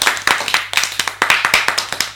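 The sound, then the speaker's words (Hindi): Hand clapping from a small audience at a riddle-guessing game event, rewarding a correct answer: many sharp, separate claps in an uneven rhythm, loud and crisp, with no talk over them. “तालियां हो जाए भाई।”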